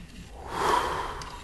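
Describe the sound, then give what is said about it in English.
A patient takes one deep breath in and out through the mouth while a doctor listens to the lungs in a hospital ward. The soft, airy rush swells in the middle, then eases off. “I'm going to have you take a nice deep breath in and out through your mouth.”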